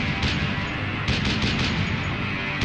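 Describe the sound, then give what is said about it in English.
Machine gun fire from enemy lines, a loud, dense, continuous clatter of rapid shots with no clear pauses, filling the whole stretch at a steady level. “Machine gun fire from enemy lines.”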